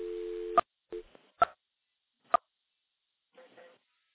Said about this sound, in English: Now we're going to go back into another electromechanical switch. There's a dial tone.